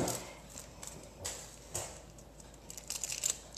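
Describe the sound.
Scissors snip through aluminium foil folded in half, cutting it into two leaves. A few faint, crisp cuts come at irregular intervals, with light crinkling between them.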